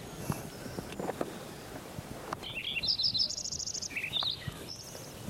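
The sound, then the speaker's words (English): A Lincoln's sparrow sings a bright, high-pitched song of rapid bubbling trills and buzzy phrases that run together for a couple of seconds. Low rustling and scattered clicks sit underneath. “Lincoln Sparrow number one.”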